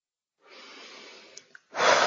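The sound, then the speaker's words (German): Deep breathing during guided meditation: a long, soft, airy breath, a brief pause, then a stronger and louder breath. “Und atme jetzt in diesem Augenblick. Tief durch.”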